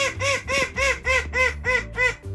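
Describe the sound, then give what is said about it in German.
A small call duck in a garden gives a rapid, steady series of loud, nasal quacks, evenly spaced and repeating without pause. “Unser letzter großer Star ist eine süße kleine Zwergente.”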